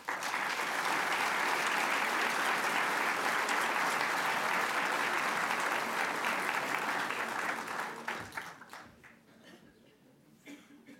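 A lecture audience applauds a Civil War author. Warm, dense clapping holds steady for about eight seconds, then tapers off quickly into near quiet.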